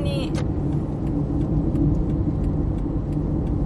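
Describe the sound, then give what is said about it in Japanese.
Car creeping through a heavy traffic jam on the Tomei expressway toward the Shuto expressway, with a steady low engine and road rumble throughout and a brief high electronic tone at the very start. “渋滞見せてあげたいよ、本当にすごい渋滞なんだよ。”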